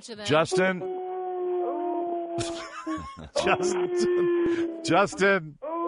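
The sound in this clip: A dog howls along as its song in several drawn-out, mournful tones of fairly steady pitch, broken by short sharp bursts of noise between the howls.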